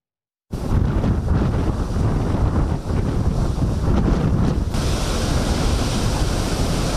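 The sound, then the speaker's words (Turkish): Strong wind blowing at about 70 km/h whips up giant waves along the Istanbul shore, a loud, unbroken roar of rushing air and surf that starts suddenly and keeps a constant heavy rumble throughout. “Saatte 70 kilometre hızla esen rüzgarla birlikte denizde dev dalgalar oluştu.”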